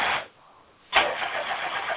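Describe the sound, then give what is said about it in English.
A car engine is started: a short burst of noise, then a brief lull, and then the engine fires and keeps running with a steady, rough roar. “Hang on, Isaac is trying to start the car.”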